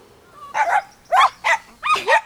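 A dog barks in several short, high, yappy bursts with brief gaps between them, heard alone without talk.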